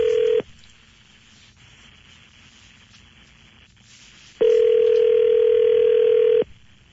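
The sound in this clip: A telephone call being placed gives a steady, clear electronic ringing tone. It sounds in two stretches: a short end of one ring at the start, then a full ring of about two seconds after a long quiet gap.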